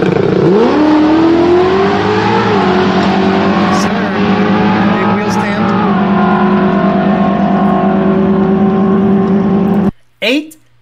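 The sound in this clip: Drag car run powered by a Ford Racing Illuminator engine with TVS 4200 supercharger, 11:1 compression, Lund tuning, in an S197: loud, sustained high-revving roar with brief dips at gear changes, cutting off abruptly near the end.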